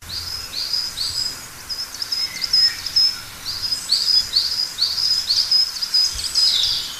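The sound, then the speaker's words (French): Coal tit song: many repeated high, thin, bright notes in quick phrases, pausing briefly around the middle before resuming, heard alone and fairly clear throughout. “C'était le chant d'une mésange noire. Bravo à celles et ceux qui ont reconnu cet oiseau.”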